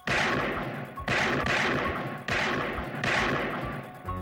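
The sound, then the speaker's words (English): Gunshots rip out in loud blasts, each striking sharply and trailing off in a long rumbling decay before the next; four are plain, spaced roughly a second apart. “I shot him 6 times. I shot him in the heart.”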